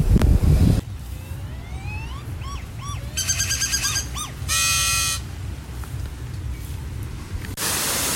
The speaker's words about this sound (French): Je sais pas si vous entendez le bruit de la cascade derrière moi